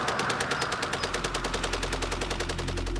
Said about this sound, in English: And this is a genuine German World War I Maxim gun. They called it a Spandau. A century old, extremely rare,